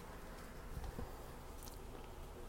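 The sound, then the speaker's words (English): Someone biting into a chip. A few faint crisp crunches come near the middle over a low steady hiss. “Wanna chip? I'm gonna eat a chip.”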